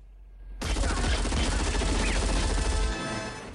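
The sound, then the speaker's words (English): Gunfire erupting from above near a soldiers' crawler vehicle with a twin machine-gun turret: a sudden loud, dense burst of rapid shots that rattles on for about two and a half seconds before easing off. “Suddenly, gunfire erupts from above.”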